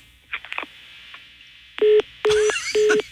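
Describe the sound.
Telephone keypad tones while placing a call: a few faint clicks, then three loud, steady beeps of equal length in an even rhythm.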